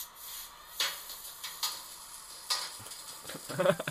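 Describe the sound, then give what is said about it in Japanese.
A wok is tossed while stir-frying fried rice: a few scraping, clattering hits over a faint sizzle, quickening into a cluster at the end. “チャーハン多分鍋振ってんのかな、うん、振ってる振ってる振ってる振ってる、うん、鍋振ってる”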